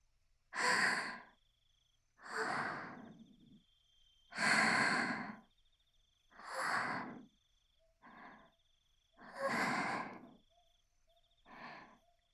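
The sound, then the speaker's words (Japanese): Seven slow, deep breaths taken one after another with pauses between them, each a long, airy, breathy rush, with no speech. “ちょっと、深呼吸しますから。”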